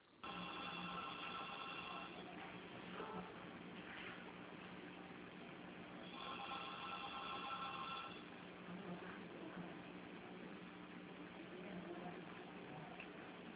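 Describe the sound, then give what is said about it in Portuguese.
A phone system's ringing signal, narrow and tinny, sounds in two clear ring bursts of about two seconds each, with fainter tones between them over steady line noise. “Perdão pelo sinal, porque o nosso sistema está tocando o dia todo.”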